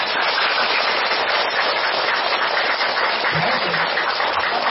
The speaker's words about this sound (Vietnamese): xin tất cả mọi người cùng hướng tâm về thầy, cúng dường thầy một tràng pháo tay